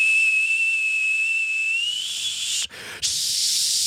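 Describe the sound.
A teapot left too long on the stove whistles with steam: a shrill, steady tone over hiss that climbs slightly in pitch, cuts out briefly, then returns as a louder rush of steam.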